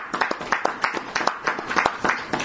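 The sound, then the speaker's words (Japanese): Clapping to celebrate two birthdays, heard as distinct sharp claps in a loose, fairly regular rhythm at a moderate volume, with no voices over them. “盛大な拍手でお祝いをし”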